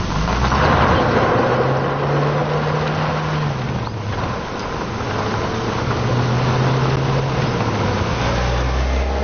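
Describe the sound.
A car driving off: a steady, loud engine drone with a low hum that wavers slightly up and down in pitch, with no talk over it.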